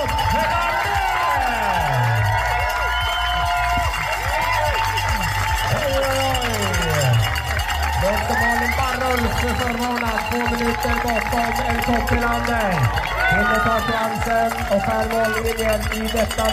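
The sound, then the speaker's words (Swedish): A large crowd cheers on a female runner on the last short climb toward a race finish, a steady wash of crowd noise under continuous excited commentary. “Och ivrigt påhejad av den stora publiken.”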